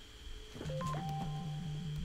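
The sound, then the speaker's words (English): Electronic phone ringtone tones: a pair of short high beeps, then a sustained steady tone over a low, pulsing buzz that repeats evenly throughout, fairly loud and without talk. “everybody phone ring? Why you up with that phone?”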